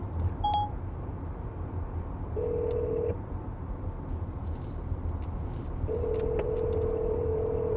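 A phone call placed hands-free from a car on a highway: a short electronic beep, then two ringback tones, a brief one followed by a longer one, over a steady low rumble of road noise.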